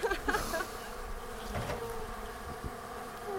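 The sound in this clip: Honeybees buzz at a beehive entrance after smoke is puffed in front of the hive. The buzzing is a steady, dense drone throughout, with a few louder bursts near the start.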